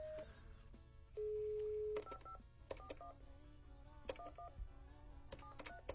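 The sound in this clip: Touch-tone dialing on a telephone call: a steady held tone, then a run of quick keypad beeps at varying pitches with short pauses between. They are moderately loud, with no talking.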